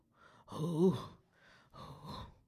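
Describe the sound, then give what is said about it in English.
A deep, breathy inhale and exhale from a nervous person steadying themselves: a loud, rough breath lasting about three-quarters of a second, then a softer, longer breath after a short pause. “deep breath.”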